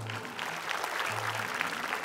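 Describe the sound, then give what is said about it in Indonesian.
Applause from a crowd, a dense and even patter of clapping that continues through the whole moment, with a faint low hum beneath it. “Harusnya orang lain yang tepuk tangan untuk saya. Tepuk tangan dong untuk saya.”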